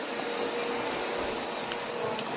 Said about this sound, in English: Vacuuming the stairs.